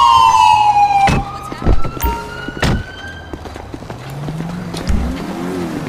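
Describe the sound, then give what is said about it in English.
A police car siren sounds a short wail that sweeps downward and fades, joined by several heavy thumps and a low, wavering whine afterward. “Oh, siren check.”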